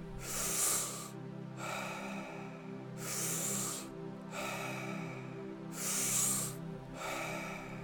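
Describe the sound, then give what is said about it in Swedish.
Rapid breathing in and out with no pause between breaths, done as a guided breathing exercise. Three stronger, airy rushes of breath rise and fall in a steady rhythm over a constant low, tonal background. “Ingen paus mellan inandning och utandning.”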